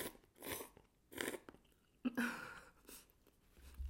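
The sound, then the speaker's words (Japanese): Soft chewing while eating cup ramen, with several faint, moist bursts of munching and slight crunching at irregular intervals and no talking. “お腹空いてたから喋りたいよりも食べたいが今勝ってますもうすぐ完食”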